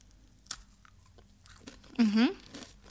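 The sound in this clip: Crunching of a healthy biscuit, a crisp snack being bitten and chewed: one sharp crunch early on, then softer crackly chewing bits and a brief voiced hum, with light speech-like sound in the background.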